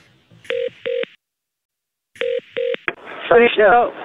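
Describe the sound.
Telephone keypad tones as a hotel's reception number is dialed: two steady beeps, a pause, two more beeps and a short click, followed by a voice talking.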